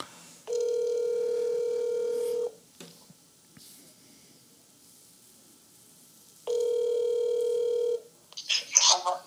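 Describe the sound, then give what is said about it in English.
Ringback tones of an outgoing telephone call: two long, steady buzzing tones of about two seconds each, separated by a long quiet gap, then a brief voice at the end. “The sound quality might not be the best, but we'll get her on the phone and see if she's up.”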